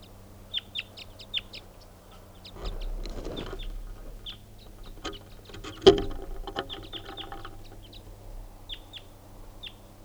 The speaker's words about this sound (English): There's a wild bird coming in now.